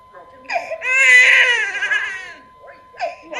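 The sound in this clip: A newborn baby cries: short whimpers lead into one long, loud, wavering wail, which fades and is followed by further short whimpering cries.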